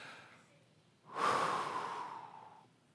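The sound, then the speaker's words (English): A single long, deep breath drawn by a group of churchgoers during a sermon, swelling in loudly about a second in and then fading steadily until it dies away, with no talking. “Okay, everybody just take a deep breath.”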